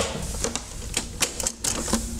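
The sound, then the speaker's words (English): A Betamax video recorder ejects a tape with a series of light mechanical clicks and clatters over a faint, steady whir, all quiet and without voices. “Compare ejecting a tape on the Betamax to the VHS. First, watch the Betamax.”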